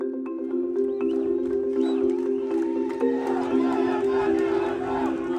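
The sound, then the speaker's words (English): Protesters in Gaza demand answers from their leaders over fuel shortages and power cuts. A crowd of voices shouts and chants together steadily, with sustained tones running under the mass of voices. “What you just heard were Gazans demanding answers from their leaders on where the fuel and power have gone, in rare but not unheard of protests that are taking place under a campaign called Bidna Na'ish, or We Want to Live.”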